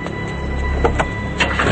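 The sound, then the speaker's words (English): Someone gets into a police car on a night street: a few soft clunks of door and seat movement sit over a steady low engine hum. “Krieger runs across the night street to his police car and gets in.”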